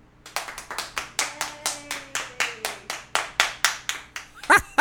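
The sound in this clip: Applause called for from an audience, heard as many sharp hand claps in a slow, even rhythm, like one pair of hands, ending in a brief louder burst.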